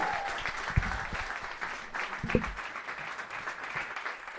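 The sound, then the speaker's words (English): Soft applause from a gig crowd welcoming a band onto the stage: a thin, even patter of clapping with a couple of slightly sharper claps standing out. “please put your hands together and make some noise.”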